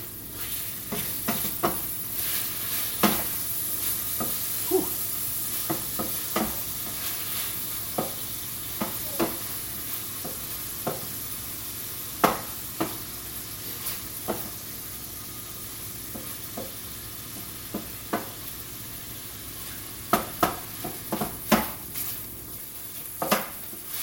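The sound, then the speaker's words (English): Sausage and fennel frying in a pan are stirred, with many sharp scrapes and clinks of a utensil against the pan over a steady, soft sizzle. No one speaks. “I don't know if the fennel was a great idea, but better stir my sausage.”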